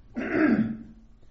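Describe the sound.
A single throat clearing to shift a frog in the throat: one short, rough, guttural rasp that rises quickly and fades, fairly loud and heard on its own.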